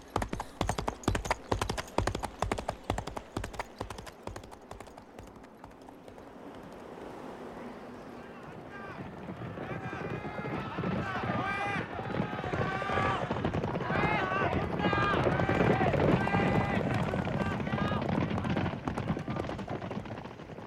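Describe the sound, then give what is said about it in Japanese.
A horse gallops, its hooves striking in rapid rhythmic thuds that are loud at first, then give way to a rushing, windy wash of noise with faint voice-like sounds layered through it. “エゴロワおばさんと僕は馬に乗り、アルフォンの元へと走った。”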